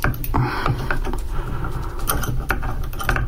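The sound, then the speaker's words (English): Clicking and ratcheting of a wrench being adjusted to fit a nut on a faucet spout arm, many small mechanical clicks and gear-like ticks in an uneven patter, with no talking. “So I've got to take that off, adjust my wrench so that it will fit,”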